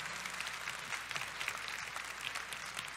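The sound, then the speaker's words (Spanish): Quiet applause at a religious talk about God. Many clapping hands make a soft, continuous patter without a break. “¿Por qué no le das un aplauso a Dios?”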